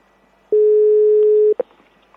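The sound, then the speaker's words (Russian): A steady telephone line tone sounds while a call is being placed, a single even beep lasting about a second, followed by a brief click. “А я звоню Маше.”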